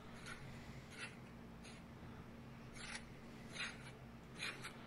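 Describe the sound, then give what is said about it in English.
Knife slicing open a mango, heard as a series of faint, crisp cutting strokes at uneven intervals over a soft, steady background hum. “It's really ASMR. You can hear him cutting the mango open.”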